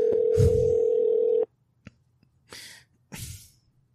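A telephone ringback tone plays while a call waits to be picked up: one steady, loud beep lasting about a second and a half, then quiet broken by a few short breathy noises.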